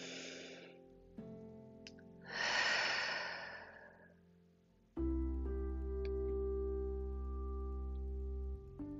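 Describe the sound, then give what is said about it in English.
A deep breath during a guided breathing-space exercise: a soft, airy breath, then a longer, fuller breath that swells and fades, followed by a steady low sustained tone. “And take a deep breath on that.”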